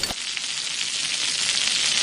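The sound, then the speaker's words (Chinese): Loud, steady sizzling of tofu skin stir-frying in a wok with scallion, ginger and dried tofu, a dense crackling hiss that starts abruptly and holds without a break. “炒千张咱们就得颠了是吧？ 对，这叫翻锅。”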